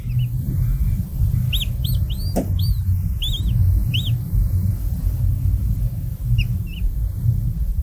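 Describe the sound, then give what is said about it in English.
High, short chirping peeps from a 28-day-old masked lapwing chick calling inside its egg. Many come in an irregular series over a steady low rumble, then a pause before a last few fainter calls. “That sound was Kristal's recording of a 28-day-old masked lapwing chick calling from inside its egg.”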